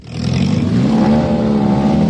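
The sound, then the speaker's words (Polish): Engines of wrecked cars racing on a track at a wreck-racing league event near Gietrzwałd in Warmia-Mazury, a loud, sustained rough roar with steady revving throughout. “Miłośnicy zniszczonych aut ścigali się koło Getrzwałdu na Warmii i Mazurach. To 6. edycja Warmińskiej Ligi Wraków.”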